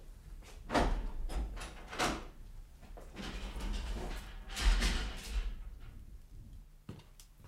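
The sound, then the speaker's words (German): A prison cell door is unlocked and opened, making a faint series of irregular metallic clicks, clunks and scraping knocks, with no talk. “Nun schließen Sie schon auf”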